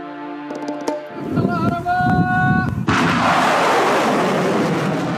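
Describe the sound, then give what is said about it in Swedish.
Missiles launched by Yemen's Houthi forces toward Saudi targets: a steady tonal whine, then a few sharp heavy bangs, giving way to a loud, sustained roaring rush. “Så här lät missilerna som skickats mot saudiska mål i helgen enligt videor från den iranstödda Houthi-rörelsen.”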